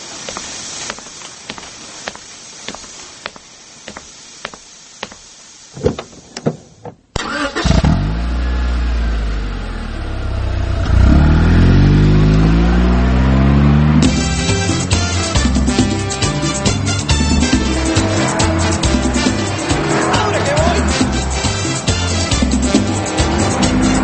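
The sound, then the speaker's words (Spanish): A car engine starts and drives off: a few sharp clicks first, then the engine catches and revs loudly with rising, falling pitch, settling into a steady driving rumble. “Vamos a comer algo. Pero vamos en mi auto.”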